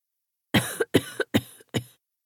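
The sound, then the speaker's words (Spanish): A coughing fit of four harsh, rapid coughs, each with a short rough tail, interrupts someone speaking on a phone call while walking through the village of Arzúa. “Gruñó su interlocutor, que se interrumpió por un ataque de tos.”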